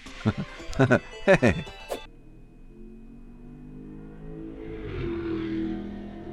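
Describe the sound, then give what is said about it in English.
A loud car without a muffler drives past a house, its low engine rumble swelling to a noisy peak and then lingering. Voices are heard briefly at the start. “Normal cars don't really hear it too much, but that was like somebody just driving without a muffler or something.”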